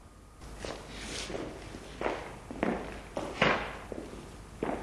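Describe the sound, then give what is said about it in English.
Footsteps of an actor walking during a film take: many steady, evenly spaced thuds over a faint hiss, each step a soft, dull impact. “Cut. Fine. Keep walking, keep walking, great.”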